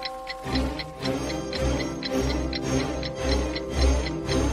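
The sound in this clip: A clock sound effect in a narrated story: steady, rapid mechanical ticking with a faint ringing tone behind it, alone and even in rhythm.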